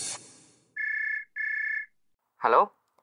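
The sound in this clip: An electronic telephone ring sounds twice as two steady, even tones separated by a short gap. A brief voice follows, as if someone is answering.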